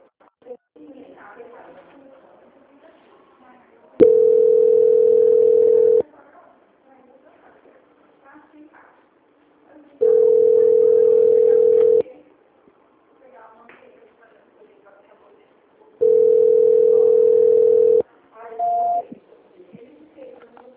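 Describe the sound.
Telephone tones while a call is being transferred: three long, steady mid-pitched tones repeat several seconds apart, with faint voices in the gaps and a brief higher beep near the end.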